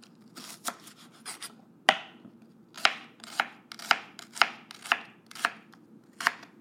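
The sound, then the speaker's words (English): A knife cuts the roots and leaves off small, layered onions, making many sharp, crisp chops in an irregular rhythm with short pauses between strokes. “and they're layered, just like slicing a little cocktail onion. Try not to get my finger. I'm just cutting some of the leaves.”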